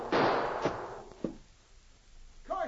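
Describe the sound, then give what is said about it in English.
Gunshots fired at a charging brown bear in a thicket: a loud, noisy blast opens, then two sharper cracks follow and die away, with a brief vocal sound near the end. “Phew, that was lucky. She almost got you. Sure good shooting, Sergeant Preston.”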